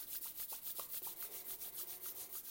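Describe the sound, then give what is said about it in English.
Hands rubbed hard together to warm them, many quick, even strokes of soft skin-on-skin swishing in a steady back-and-forth rhythm, fairly faint and with no voices. “You can take your hands and rub them together. Push hard so that they can get warm or warmer if they're already warm. Keep rubbing them together.”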